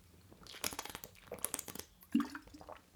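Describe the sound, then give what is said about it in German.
A quick sip of a drink: a few faint wet slurping and clicking mouth sounds, soft and brief, with a slightly stronger gulp near the end. “Lass mich mal kurz einen Schluck trinken.”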